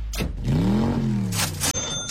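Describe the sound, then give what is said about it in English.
Cars driving past, an engine hum whose tone swells and bends downward as it goes by, followed by bursts of rushing tyre and air noise, fairly loud throughout. “I was like, were those cars? Or, here they come again.”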